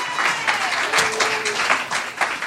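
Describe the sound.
A live comedy audience applauds as comedians come on stage, a dense, steady wash of clapping with a few voices mixed in.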